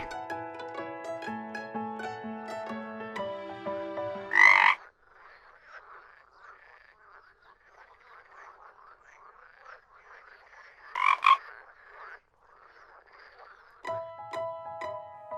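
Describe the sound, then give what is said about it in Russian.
A frog croaking: a raspy, buzzing drone that runs steadily through the middle, broken by a couple of louder calls, with melodic music playing before and after. “Лягушка говорит ква-ква. Ква-ква, ква-ква.”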